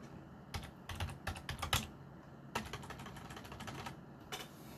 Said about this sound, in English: time where I'm not saying anything and you're just hearing me type.